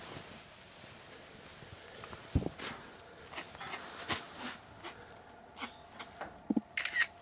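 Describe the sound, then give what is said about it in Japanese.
Camera shutter clicks from photos being taken: a few sharp, brief clicks scattered unevenly over a quiet, low background hiss, with some faint shuffling between them. “収録しながら写真撮っちゃった。”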